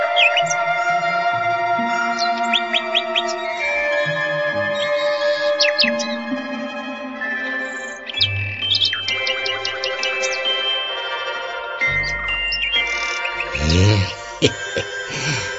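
A nightingale sings in a forest, pouring out a continuous, loud stream of varied whistles, rapid clicks and trills that shift from phrase to phrase without pause.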